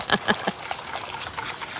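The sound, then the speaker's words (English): Whisking a batter of milk and flour: faint, quick, rhythmic clicking and sloshing strokes, sharper at the start and then continuing more softly. “So you're just whisking up the other mixture, the milk, the flour.”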